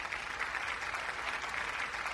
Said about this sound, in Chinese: 孙和平在一片暴风雨般的掌声中结束了富有激情的简短演讲。